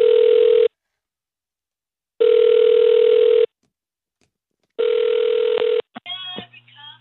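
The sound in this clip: Telephone ringback tone heard by a caller waiting in a phone queue: three long, steady buzzing rings separated by silent pauses, followed by a brief voice at the end.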